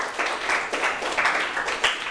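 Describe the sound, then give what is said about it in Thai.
Applause from students in a classroom, a steady, even patter of many hands clapping for about two seconds, with no talk over it. “ถูกต้องนะครับปรบมือให้เพื่อนหน่อยครับ”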